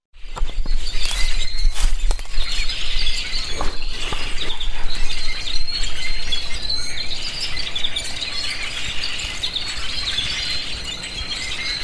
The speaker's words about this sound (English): Downy woodpecker.